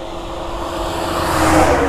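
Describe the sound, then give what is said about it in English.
Road traffic noise rumbles steadily along a road, with a passing vehicle swelling louder toward the end of the short stretch. “Sorry about the traffic. And sorry about the wind.”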